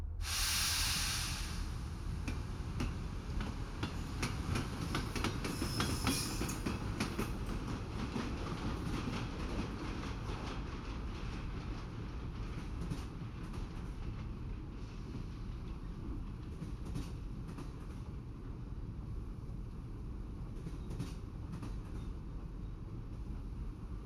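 A luxury continental express sleeper train pulls away and runs on its rails with a steady, continuous rumble and rolling clatter. A bright hiss sounds near the start and again a few seconds in, then the rumble runs evenly to the end.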